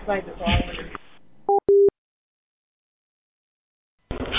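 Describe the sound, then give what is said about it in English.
Telephone tones from a phone dialed by voice assistant because its touchscreen is broken: two short electronic beeps follow a voice, then silence before talking resumes. “I have to use the voice assistant to dial because the touch screen doesn't work.”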